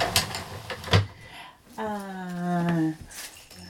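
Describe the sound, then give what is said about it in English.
A door is pushed shut, giving two quick knocks in close succession. A sustained, voice-like tone follows afterward. “We'll close that door, and we'll close that door,”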